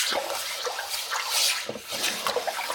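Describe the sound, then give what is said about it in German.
A stiff brush scrubbing a cutting board at a kitchen sink while washing dishes, giving many quick, wet, scratchy strokes in an uneven rhythm, moderately loud with no talk. “Ah ja, da hört man, wie ich jetzt nämlich nicht mehr den Schwamm nehme, sondern die Bürste.”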